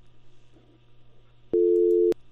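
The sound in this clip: A telephone busy tone sounds after a call's line drops: one steady, loud tone lasts about half a second over a faint low hum.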